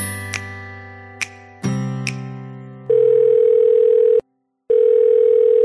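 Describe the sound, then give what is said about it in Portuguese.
Telephone ringback tone while a call is being placed: a few short clicks and beeps over a fading electronic chord, then a loud, steady mid-pitched tone that stops briefly and resumes. “bora ligar para Rodrigo Cosma e ouvir que histórias ele tem para contar pra gente”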